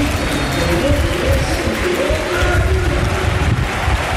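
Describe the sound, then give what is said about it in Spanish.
A stadium crowd applauds a football player coming on as a substitute during an Almería match, a dense, steady wash of clapping and crowd noise that holds at an even level throughout. “Y a ver la gente cómo recibe a Nico. Y en este caso Arribas y paramos. A ver. Aplauso a Nico Melamed.”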